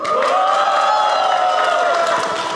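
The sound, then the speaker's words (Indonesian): Live audience cheering and shouting together, a loud, unbroken roar of many voices that holds steady from start to finish. “Kali ini agak spesial karena Keponya live. Mana suara penontonnya?”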